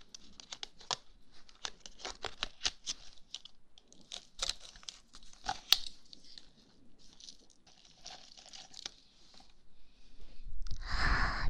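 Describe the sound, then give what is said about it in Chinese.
Someone eats a dry, crumbly green milk crisp ball pastry, making many quiet, sharp crunches and crackles in an uneven rhythm, followed by louder rustling crumbling near the end. “下面来尝一下你喜欢的鲜绿奶酥球”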